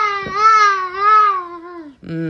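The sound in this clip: A toddler babbles in one long, high, sustained vocal tone that wavers and then slides downward in pitch, followed by a brief second voiced sound.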